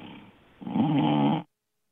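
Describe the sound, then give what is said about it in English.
A man snoring over a telephone call, heard as a single rough, raspy snore lasting under a second after a faint breath, with a thin, band-limited phone-line quality, then silence. “are you snoring?”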